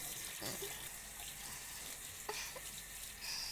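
Shower water runs in a steady, faint hiss of spray that holds without a break throughout.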